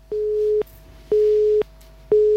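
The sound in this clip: Busy-signal tone on a telephone line after the caller hung up: three steady, mid-pitched beeps of equal length in an even on-off rhythm, alone with no voices.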